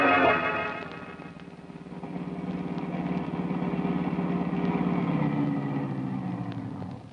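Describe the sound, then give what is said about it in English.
A car engine rumbles at a steady low idle as the car pulls up and parks. The sound runs evenly throughout and dips slightly at the very end. “I pull up and park. As I turn the motor off”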